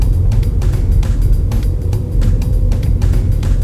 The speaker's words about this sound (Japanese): あ、止まりましたね。まあ、全くブレーキを踏んでいないんですけど止まりました。